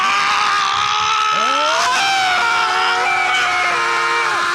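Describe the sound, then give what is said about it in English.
Loud, whining car sound attributed to a BMW driving down a road: steady high harmonic tones with a few sharp swooping pitch bends like squealing tyres, continuous and alone without talk. “Every time I hear you drive down the road in your Beamer, this is what it sounds like.”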